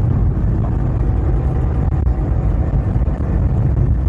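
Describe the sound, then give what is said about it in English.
Steady engine drone and heavy wind buffeting on the microphone from an East German Trabant car driving downhill, a broad, continuous low roar with no voices. “so a slight reduction of the engine noise, but still getting a lot of wind noise on the microphone, so apologies for the sound quality.”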